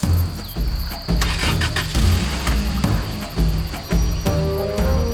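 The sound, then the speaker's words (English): A car starting and driving away during a time of unrest, its engine surging and easing in repeated low revs that rise and fall several times as it pulls off. “We watch Bharat drive away.”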